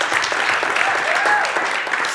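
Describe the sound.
Applause from an audience of couples at a church ministry gathering: steady, dense clapping that holds at an even level for the whole stretch, with no clear voices standing out above it.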